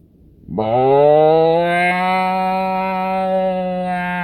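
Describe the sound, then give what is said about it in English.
A person's voice imitates a cow mooing: one long, loud, low moo that starts suddenly and holds a steady, buzzy tone for nearly four seconds. “Look, there's a cow. There's a cow, boy. And the cow's like,”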